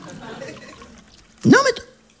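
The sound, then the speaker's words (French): A drink being poured into a glass: after a quiet, murmuring stretch comes a short liquid gush whose tone climbs quickly, then stops. “Allez, on va boire un petit verre. Oh, bah, si, quand même. Bon, bah, écoute, écoutez, moi, je me sers.”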